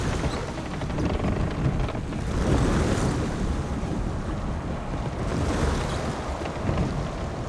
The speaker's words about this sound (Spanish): Una barcaza se acerca a la costa.